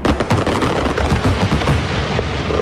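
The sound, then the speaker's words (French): Fireworks pyrotechnic effect: dense, continuous crackling with rapid popping bursts and low rumbling booms, loud throughout the whole stretch, with no voices. “Feu d'artifice, effet pyrotechnique.”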